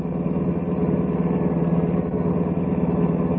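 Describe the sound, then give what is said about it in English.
A car engine hums steadily as the car drives downtown into a manufacturing district, a continuous low, even drone with a slight rhythmic throb and no other sounds. “I kept driving downtown to the west side into the manufacturing district.”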